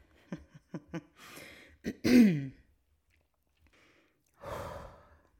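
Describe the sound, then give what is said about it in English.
Throat clearing: a few short rasping bursts lead into a longer, louder throaty clear. After a quiet pause comes one more breathy, rough exhale, with no talking. “Clearing the throat, getting ready to get in the game.”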